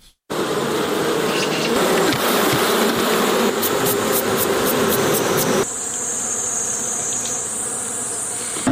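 Honey bees buzzing at a bee farm in Helmand province: a dense, steady drone from many bees that runs unbroken throughout, with a thin, high whine joining in partway through.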